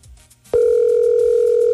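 A telephone call ringing while waiting for an answer: a steady, loud electronic ring tone begins abruptly after a short quiet moment and holds without a break.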